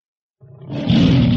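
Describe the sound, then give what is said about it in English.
A tiger roars once, a deep, rumbling call that starts after a moment of silence and swells quickly to a loud, sustained growl. “What's this? It's a tiger.”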